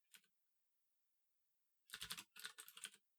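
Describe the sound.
Keyboard typing as commands are entered in a text adventure game on a computer: a brief clatter of a few keystrokes, a pause, then a longer run of rapid, crisp key clicks, with no voices.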